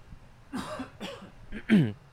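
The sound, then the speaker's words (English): Coughing to clear a scratchy throat, a few short rough coughs in quick succession, the last one the loudest, heard alone without talk and otherwise quiet. “And I have a little scratchy thing in my throat, so let me cough that out.”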